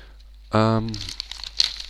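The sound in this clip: Crinkling wrapping paper as a large gift package is unwrapped, a short voiced sound first, then a fast run of papery rustles and crackles.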